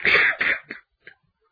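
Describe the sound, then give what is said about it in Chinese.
A storyteller's voice imitates harsh coughing from choking on lime dust: two strong, raspy coughs, a weaker third, then a faint final catch before silence. “眼睛里也是白灰了，鼻子眼里头也是的，呛得咔咔直咳嗽”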